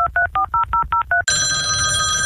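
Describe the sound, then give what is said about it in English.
Telephone ringing on an outgoing call: a quick run of short, evenly spaced electronic ring pulses that cuts off abruptly into a steady, sustained tone. “Outside the Box has obtained unconfirmed audio of the call made by the desperate Special Envoy Stevens to her that, if made public, may have changed that history.”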